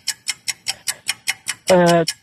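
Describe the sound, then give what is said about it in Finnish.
A clock ticking as a timer for a quiz game: many crisp, evenly spaced ticks, then a loud buzzing tone that holds briefly before the ticking resumes. “No niin, pistän kello käymään nyt.”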